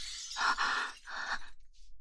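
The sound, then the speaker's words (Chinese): A mirror being smashed: two loud crashing bursts of shattering glass, followed by a faint, brief tinkle of falling fragments. “居然打碎了我的镜子！”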